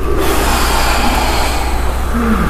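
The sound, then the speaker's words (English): Deep, audible exhaling by a group doing a guided breathing exercise: a soft, breathy rush of air that holds fairly steady for the whole stretch, with no clear pauses between breaths. “If you guys could close your eyes, okay? And I want you to take a few deep breaths. And I actually want to hear the exhale.”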